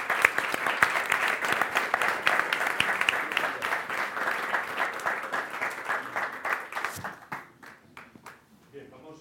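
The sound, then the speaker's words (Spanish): Audience applause at a corporate health day event: dense, loud clapping that holds steady for several seconds, then thins out and fades, ending with a few scattered claps. “Un aplauso para él.”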